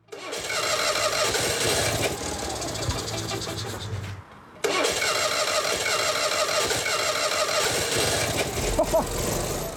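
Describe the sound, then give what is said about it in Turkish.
A car engine cranks and fires up after being reinstalled, with oil and gearbox connected and the transmission in neutral. It gives a loud, dense, steady roar that briefly drops out midway, then catches again and keeps running. “En azından şu motoru çalıştırmalıyız. Evet, yağ, vites kutusu, hepsi bağlandı. Boşa aldık, tamam. Şimdi neler olacak göreceğiz.”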